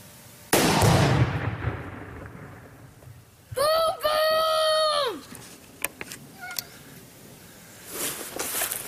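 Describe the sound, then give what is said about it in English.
A single loud blast as an AR rifle shot sets off a large charge of tannerite, with a sudden broad crack and a long fading rumble, followed later by a drawn-out voice. “Today I am going to shoot my AR rifle at a big thing of tannerite. It's going to go boom, boom!”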